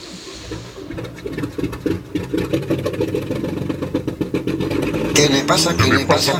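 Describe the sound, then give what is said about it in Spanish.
A truck engine cranks but fails to start, a rough, chugging run of many uneven pulses that grows louder and harsher toward the end. “¿Qué le pasa a mi camión? Que no arranca.”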